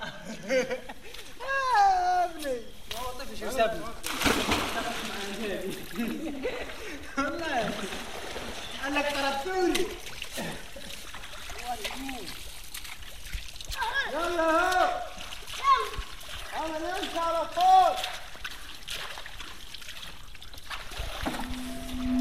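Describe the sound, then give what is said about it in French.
At dusk under a full moon, villagers wash at the Juba spring in Siwa oasis, Egypt. Water splashes and trickles beneath lively, high-pitched voices of children playing, shouting and chattering throughout. “L'oasis des Siwa en Égypte au crépuscule. Les paysans se lavent à la source Juba, les enfants jurent et jouent sous la pleine lune.”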